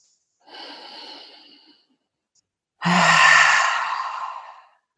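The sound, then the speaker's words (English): A group takes a deep breath together: a softer drawn-out airy breath, a short pause, then a louder, longer sighing breath that slowly fades. “Let's everybody take a big inhale together.”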